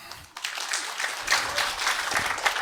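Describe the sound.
Crowd applause greeting a speaker introduced for a talk on generative art: after a brief lull, clapping swells into a dense, moderately loud patter that carries on steadily to the end.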